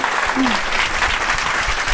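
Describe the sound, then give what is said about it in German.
Sustained audience applause at the close of an evening talk event, dense and steady clapping from many hands that holds at an even level from start to finish. “Ich fand den Abend total spannend und sag danke und denke, dass ein Applaus wert.”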